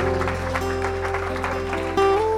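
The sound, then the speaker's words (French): A church audience applauding under sustained musical chords. The clapping forms a steady wash beneath the held tones, and the music shifts to a higher chord near the end. “Est-ce qu'on peut applaudir ensemble Jésus?”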